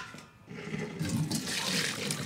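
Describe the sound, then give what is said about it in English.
Water pours steadily while boiled root vegetables are drained, cooked with some of the liquid from simmering salt cod. It makes a continuous, fairly faint splashing rush with no speech. “So we're draining the root vegetables that had been boiling, and they've been flavored with some of the cooking liquid from the bacalao.”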